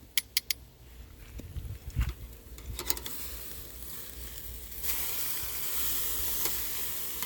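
Food sizzles over charcoal on a grill that is not hot enough to leave char marks. Faint crackles and pops come early, then a steadier hiss builds and holds louder through the second half.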